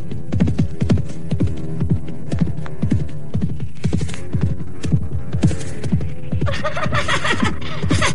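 Horse hooves clip-clop in a steady, even rhythm, with many loud thumping beats over a low hum that continue throughout.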